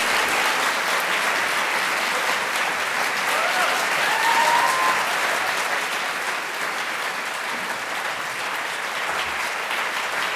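Audience applause welcoming David Peace and Nick Cave onto the stage at the Purcell Room, a dense, even roar of many clapping hands that holds steady for about ten seconds.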